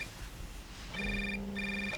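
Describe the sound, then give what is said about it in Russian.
A telephone ringing at three in the morning gives two bursts of bright electronic ringing, each under half a second, separated by a short gap and standing clearly above a quiet background. “Ну хоть посмотри, кто звонит. Я не увижу без очков.”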